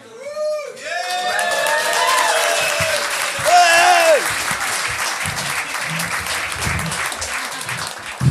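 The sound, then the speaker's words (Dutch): Shrieks rise from the back of the hall as a live show opens in a basement venue in Amsterdam. Sliding, high wavering screams ring out at the start and again midway over continuous applause and crowd noise. “Zo begint Jeroen Leenders Experience met wat gekrijs, met een beetje gekrijs van achter in de zaal.”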